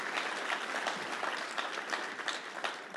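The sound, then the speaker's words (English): A church audience applauds during a sermon with dense, steady clapping that holds at an even level for about three seconds, with no talking over it. “Can we give these guys a big round of applause?”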